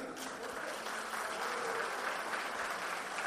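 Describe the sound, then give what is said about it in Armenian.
Audience applause greets the opening of a live evening event, with dense, steady clapping from many hands continuing at an even level for the whole stretch. “Ես ուզում եմ ծափերը չդադարեն։”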